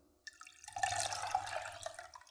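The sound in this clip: A lukewarm mixture is poured back into a small pan of milk. After a brief opening sound, a steady splashing stream of liquid runs continuously to the end.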